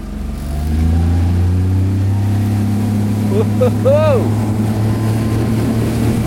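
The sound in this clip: A motorboat engine drones as the boat speeds off across the water. The low, humming roar builds within the first second and holds loud and steady, with wind rush and a brief voice rising over it midway.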